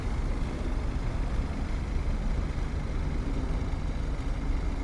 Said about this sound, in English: I'm standing here at a bus stop in 2023, and those damn cars that stop and start again.